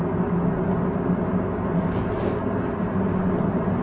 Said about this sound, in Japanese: スクイコ戦の帰りになります。運転してます。